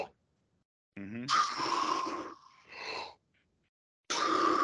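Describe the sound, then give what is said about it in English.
A voice imitating the sharp gulp of air a swimmer takes when turning the head from face-down, a few breathy, gasping bursts separated by short silences. “So I take like a gulp. Yeah, so like my head is down. I turn my head. I take a gulp.”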